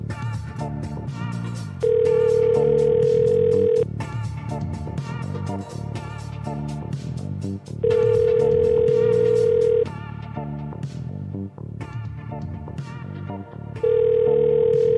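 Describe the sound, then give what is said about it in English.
A telephone tone repeats while voicemail is checked: three long, flat beeps of about two seconds each at regular intervals, cutting loudly over a busy, continuous background sound. “There are a few voicemails here to check on.”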